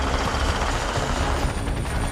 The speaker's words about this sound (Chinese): 阿帕奇武装直升机于1986年开始服役美国陆军。